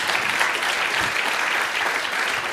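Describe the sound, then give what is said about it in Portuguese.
Applause for a guest called up to receive a prize, a dense, even wash of clapping that holds at a steady level for the whole clip. “Uma salva de palmas para a Ana.”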